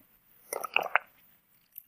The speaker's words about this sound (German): ich trinke noch schnell einen Schluck Tee